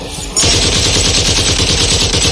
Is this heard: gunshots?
yes